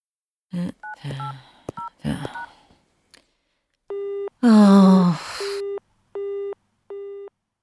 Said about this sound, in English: The line's engaged.